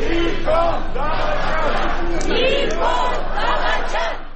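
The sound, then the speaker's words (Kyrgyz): Protesters at a Yerevan rally chanting and shouting against Prime Minister Nikol Pashinyan: a loud, dense mass of raised voices that continues steadily and then tapers off at the very end. “Алар Никол чыккынчы деп кыйкырышууда.”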